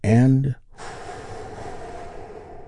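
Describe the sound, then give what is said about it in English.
A person takes a big, deep breath: a short voiced sound, then a long, steady, airy inhale that carries on evenly for about two seconds. “We do that by taking a big, deep, healing breath with me right now.”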